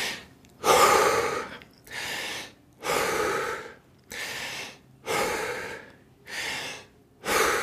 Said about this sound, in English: Let's take five deep breaths all the way in. Through your mouth is fine.